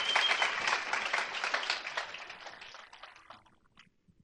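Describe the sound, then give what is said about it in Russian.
An audience applauds to welcome a guest speaker. Loud, dense clapping holds for a few seconds, then thins and fades, ending in a few scattered claps. “Хорошо, давайте бурными аплодисментами поприветствуем Джонатан Уэлтон.”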